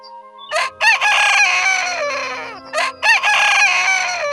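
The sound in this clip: A rooster crows twice in a children's story. Each loud cock-a-doodle-doo opens with short clipped notes and then holds a long drawn-out call that trails off, with a brief pause between the two crows.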